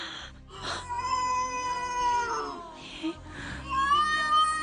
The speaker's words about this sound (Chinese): 唔系 B B 喊，系猫仔喺度叫。原来后巷有只猫，